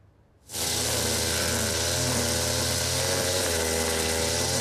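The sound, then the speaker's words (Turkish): Motorized engines run to clear the ground beneath hazelnut trees in a Black Sea orchard. After half a second of quiet, a loud, steady, buzzing drone starts abruptly and holds without a break. “Fındık altı temizliği için motorlar çalışıyor.”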